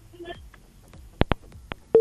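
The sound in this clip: Phone line going dead as a caller is cut off. After a brief burst of line noise come three sharp clicks, then a steady mid-pitched tone starts right at the end.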